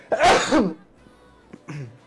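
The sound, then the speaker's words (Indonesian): A single sharp human sneeze bursts out loud and breathy at the start, followed by quieter brief sounds after a short pause. “bersin tuh”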